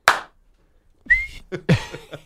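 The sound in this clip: A person whistles to imitate a football referee's penalty whistle: a single short, bright whistled note that rises slightly, preceded by a sharp burst and followed by a few short vocal sounds.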